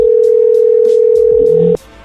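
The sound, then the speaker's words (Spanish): A telephone line tone sounds while a call is dialed again, one loud, steady, unbroken pitch that cuts off abruptly near the end, with faint noise underneath. “ahí le estamos marcando de nuevo.”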